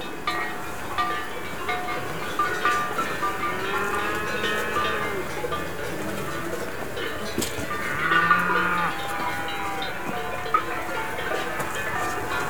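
Sounds of a herd of farm animals, with scattered bleats and a low lowing call near the middle over a steady, busy background of animal noise.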